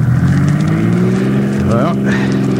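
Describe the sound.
Car engine roaring as a radio drama sound effect, a loud, steady low drone with layered harmonic tones throughout, and a brief voice cutting in near the end.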